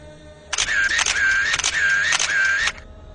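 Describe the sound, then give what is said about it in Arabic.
A camera shutter fires flash photos in dark corridors: five crisp clicks, each followed by a high, steady electronic whine from the flash recharging, then a sudden stop. “اخدت الكاميرا. الدور الارضي كله اوض مقفولة وممرات ضلمة. فضلت انور نور الفلاش بصور بيه.”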